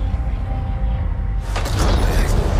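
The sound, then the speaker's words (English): A film sound effect of the Terminator teleporting: a loud low rumble swells into a sudden crackling, hissing burst about halfway through, then keeps roaring at full strength to the end. “Terminator, he's teleporting.”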